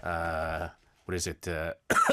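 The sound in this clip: Someone clears their throat and coughs because something is stuck in it: a long voiced rasp, then a few shorter, harsh bursts separated by brief pauses.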